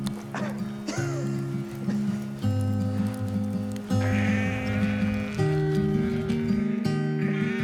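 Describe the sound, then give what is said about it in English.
A flock of sheep bleats repeatedly as it is herded to fresh pasture in the mountains, with many overlapping wavering cries over sustained low musical chords. “The sheep are on the move.”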